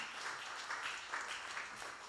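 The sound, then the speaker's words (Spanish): Faint clapping from a church audience clapping for the Lord during a service, a soft, steady patter of many hands with a loose rhythmic pulse. “Dele palmas al Señor con todo su corazón.”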